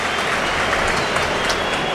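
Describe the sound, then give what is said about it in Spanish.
A football stadium crowd applauds as a substituted player leaves the pitch, a loud, dense and continuous wash of clapping without clear breaks. “Se va Fran Pérez, entre aplausos.”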